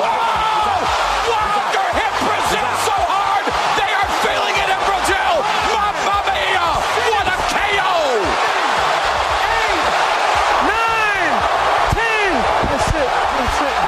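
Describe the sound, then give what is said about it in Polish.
A knockout punch landing in a Deontay Wilder boxing match, with heavy thuds buried in a loud, continuous crowd roar while commentators talk. “Słyszeli Państwo to uderzenie, potem było liczenie. Przypuszczam, że gdyby nas tak trafił, to byśmy jeszcze do dzisiaj tu leżeli.”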